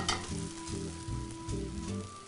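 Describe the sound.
Bread fries in a pan with a constant, fairly loud sizzle and crackle, while soft, regular low thumps run underneath.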